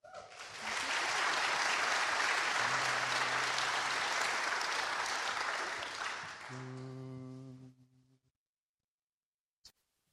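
Audience applause welcomes a group of singers to the stage. The clapping stays full and steady for about seven seconds, then fades out, leaving near silence broken by one brief click.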